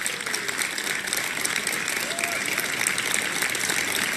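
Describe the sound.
Applause from an audience after a speech announcing withdrawal from the Paris climate accord, a sustained, even wash of clapping with a voice faintly heard beneath it.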